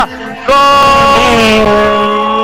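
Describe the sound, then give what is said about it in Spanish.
A rally car engine roars in loudly as the car arrives and drifts through a stage. The sustained, buzzy engine note bursts in after half a second and wavers in pitch midway. “Coche a la vista. Un derrape espectacular, sí, señor.”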